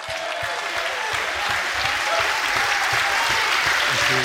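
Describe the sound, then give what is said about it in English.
A talk-show studio audience claps to welcome a politician as the guest. The applause is loud, dense and steady throughout, with no talking over it. “Please raise the roof for the wonderful Anas Sarwar!”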